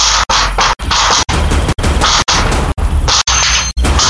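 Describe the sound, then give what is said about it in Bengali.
Repeated heavy crashing blows against a door, kicked with full force until it breaks. Many loud, harsh bursts come in a steady rhythm, roughly two per second, with brief gaps between them and no voices. “পদা দরজায় সর্বশক্তি দিয়ে লাথি মারতে শুরু করল।”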